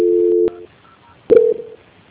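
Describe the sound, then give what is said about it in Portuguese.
Telephone tones sound while a call is transferred to a bank's quality-control line. Two short, steady beeps are separated by a brief silence, the first longer than the second, and a sharp click marks each one. “que eu vou transferir o contato para o controle de qualidade, que dará continuidade à contratação do seu consignado. Só um minuto, por gentileza. Transferência.”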